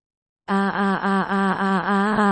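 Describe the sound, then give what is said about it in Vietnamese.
Dying bounty hunters moaning and wailing in the night on an island, a loud, continuous, drawn-out cry with a rich, buzzy tone and a steadily pulsing, wavering pitch. “Từng tiếng kêu rên trong trời đêm vang lên liên hồi. Náo động khắp cả hòn đảo”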